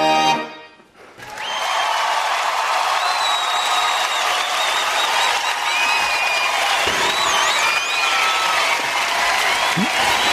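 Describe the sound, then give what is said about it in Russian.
Sustained applause and ovation from television and radio company staff gathered backstage greeting a performer: dense, steady clapping from many hands that swells in after a brief quiet start and holds at an even, loud level to the end. “За кулисами подготовлены аплодисменты сейчас у нас вот прозвучали. Собралось почти все наше сообщество, которое работает в телерадиокомпании, и вот такими овациями встречает исполнитель нас.”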